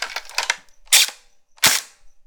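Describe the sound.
A BB gun firing, with a quick cluster of lighter clicks followed by two loud, sharp snapping pops a moment apart, with no talk.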